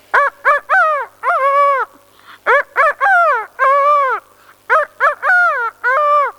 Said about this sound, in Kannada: ಹುಂಜ ಹೀಗೆ ಕೂಗುತ್ತದೆ.